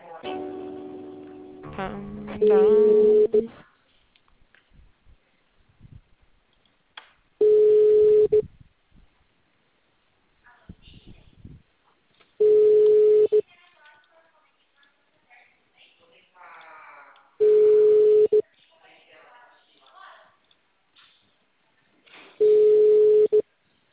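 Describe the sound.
Telephone line tones while a call to a city hall is transferred to another extension: after some brief sounds at the start, five steady mid-pitched beeps, each about a second long, repeat at even intervals of about five seconds, with near silence between them.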